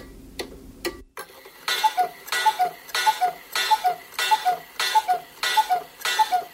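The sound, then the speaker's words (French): A radio station's clock ticks in a steady, even tick-tock rhythm, with many crisp paired beats carrying a faint ringing tone. It follows a few scattered clicks and a low hum that cut off abruptly. “Avant de démarrer l'émission, on doit attendre le feu vert de la pendule de la radio Saint-Ferréol.”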